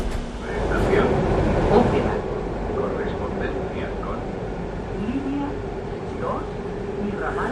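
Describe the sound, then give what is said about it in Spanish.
A metro train arrives and runs at medium occupancy, giving a loud, steady rumble with brief high metallic squeals over several seconds. “en cuanto venga el metro nos vamos a subir para comprobar si efectivamente es una ocupación media y hace esa temperatura dentro”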